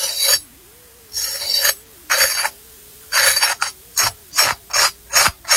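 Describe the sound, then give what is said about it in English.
A knife scrapes across the crisp skin of a roast turkey in repeated rasping strokes, longer at first and then shorter and quicker toward the end, with quiet gaps between them. “before you heard him scrape the knife across the nice crisp skin of it”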